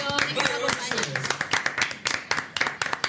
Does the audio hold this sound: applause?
yes